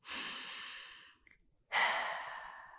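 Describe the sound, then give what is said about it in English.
A deep breath, drawn as a long airy rush, followed after a short pause by a second, slightly louder breath that trails off like a sigh. “you can take a deep breath right now with me”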